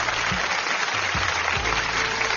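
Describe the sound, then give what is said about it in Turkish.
Audience applause: continuous, dense clapping that holds at an even loudness throughout without breaks. “Alkış tutan elleriniz dert görmesin, benden de sizlere alkışlar.”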